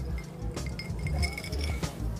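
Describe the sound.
Glasses of gin clink together in a toast, giving a few bright, high-pitched chinks scattered over a low, steady background rumble.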